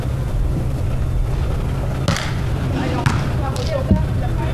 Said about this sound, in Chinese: 现在首先是由海口苏轼发球。 现在海口是一队来发球。